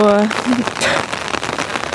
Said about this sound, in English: I'm pretty sure you can hear this, but it is raining outside, and I do have an umbrella